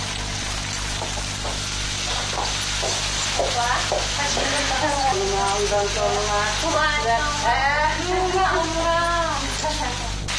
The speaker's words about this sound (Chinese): 阿丽亚妈妈早已经开始忙活着做饭了。今天的午餐是极富当地特色的木瓜手抓饭。